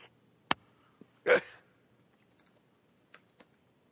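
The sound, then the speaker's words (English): Sparse keystrokes on a computer keyboard: a few isolated, faint clicks spread over near silence, with one brief, louder burst of keys early on. “I just typed in that I never pay attention.”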